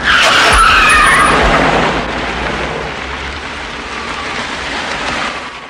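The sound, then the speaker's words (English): A police car takes a corner with a loud burst of tyre skid and engine roar, then eases into a lower, steadier rumble as it pulls up and stops. “Marie drives a cop car round the corner and stops by Randall's car.”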